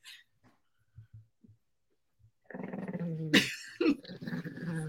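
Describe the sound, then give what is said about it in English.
A dog growls and whimpers: faint, scattered low sounds at first, then a louder, sustained throaty growl broken by a couple of sharper whining bursts. “No, that's the dog. Listen to it.”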